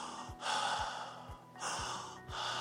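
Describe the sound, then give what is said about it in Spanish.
A person imitates calm, normal breathing during sleep, giving a few slow, even breath cycles. The soft, airy inhales and exhales alternate at a steady rhythm, with no other sound. “Ustedes saben que una persona que respira normal, respira pues,”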